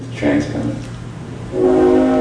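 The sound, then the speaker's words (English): A freight train whistle sounds from railroad tracks behind a house: a short chordal blast, then a longer sustained, steady-pitched one that runs to the end. “Robbie Coltrane interrupted to point out the whistle of a freight train drifting up from the railroad tracks that run behind the house”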